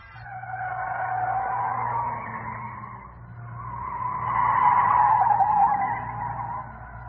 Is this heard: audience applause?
no